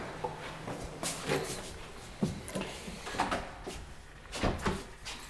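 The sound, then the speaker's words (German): A key unlocks an apartment door on the top floor of a building. It sounds like a few faint metallic clicks and soft knocks from the lock and door, spread irregularly and quiet throughout. “schließt die Wohnung auf”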